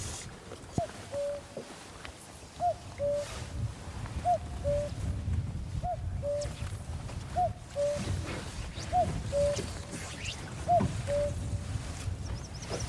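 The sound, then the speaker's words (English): A cuckoo calls by a wild, rugged Scottish loch, repeating its two-note falling call about seven times at a steady, unhurried rhythm, fairly faint over a constant low rumbling background. “wow, that's really good, that cuckoo.”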